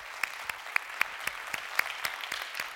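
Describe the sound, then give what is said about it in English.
A church audience applauds with sharp, distinct claps in a fairly steady, even rhythm, moderately loud throughout. “So if you would, put your hands together. Welcome in our online family.”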